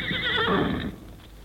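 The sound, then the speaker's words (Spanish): A horse neighs in a single loud, quavering whinny lasting just under a second, then the sound drops to a quieter steady background. “Un caballo relinchando, a lo mejor eso alertándolos.”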